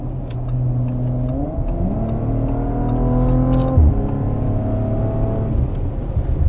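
A car accelerates on the motorway under partial throttle, its steady engine drone climbing in pitch through a few stepped rises with brief dips between them, like gear changes, holding an even, fairly loud level throughout with no voices.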